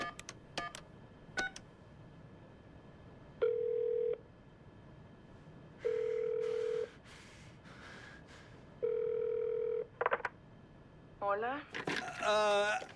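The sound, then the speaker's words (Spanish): A phone call placed to a number on the back of a card: a few faint clicks, then three long, steady ringback tones separated by pauses, followed at the end by a voice answering over the line. “El guardia coge la tarjeta y ve el número telefónico al reverso. Hace la llamada mientras mira a Ji-hun.”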